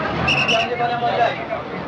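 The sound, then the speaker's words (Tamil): A bus pulls in, a steady engine rumble under a brief high squeal, with crowd babble around it. “Bus வருது, வா புள்ள.”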